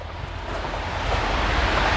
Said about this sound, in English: it's raining. There's water dripping off of the awnings.